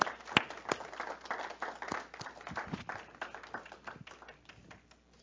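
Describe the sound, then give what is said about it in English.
A church audience claps for the Lord at a service, a faint patter of many hands with scattered sharper claps that gradually thin out and fade toward the end. “So let's give the Lord a hand and say thank you for welcoming us into a new month.”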